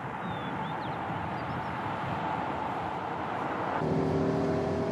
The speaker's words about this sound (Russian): Машина Андрея несется по мокрой дороге.